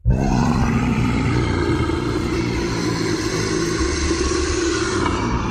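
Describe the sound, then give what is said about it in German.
A legendary dragon's roar from the Siebengebirge near Bonn bursts in suddenly and holds as one long, loud, rough, growling bellow with deep rumbling undertones, never pausing. “Und der Legende nach klang es dort vor vielen Jahren noch so.”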